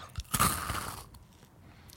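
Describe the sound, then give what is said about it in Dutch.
A bite into some food close to the microphone gives one sharp, loud crunch. Softer crackling chewing follows and fades away over the next second or so. “Kijk, als ik dit eet, weet je wat er dan gebeurt? Misofonen houden even de oren dicht.”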